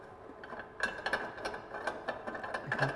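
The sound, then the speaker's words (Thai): The lock on an appliance's tank is loosened in a quiet, uneven run of many small ratcheting clicks, some bunched close together and some spaced apart. “ก็คลายตัวล็อกนะครับคลายตัวล็อกนะครับ”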